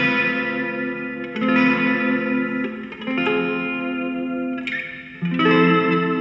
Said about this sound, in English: we can put this in a cathedral. So the reverb you hear now is from the two notes plugin.